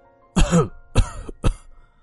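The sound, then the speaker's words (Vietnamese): Three rough, hacking coughs from an old man who has been chewing pipe tobacco aboard a boat at sea. The first burst is the longest and loudest, followed by two shorter coughs, with no talk. “Ông Cát nói với cháu, bị cơn thèm ho, ho lên vài tiếng.”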